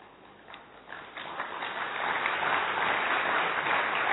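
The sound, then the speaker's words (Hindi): An audience clapping to mark the end of a session, starting with a few scattered claps that swell into steady, dense applause from many hands. “ताली किस लिए बजाई, समाप्ति के लिए।”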